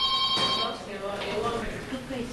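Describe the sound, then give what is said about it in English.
A telephone rings briefly at the start in the crowded waiting room of a domestic workers union office in downtown São Paulo, a shrill electronic tone that fades as people talk over the busy room noise. “The waiting room is crowded and the phone is ringing off the hook at the domestic workers union in downtown São Paulo.”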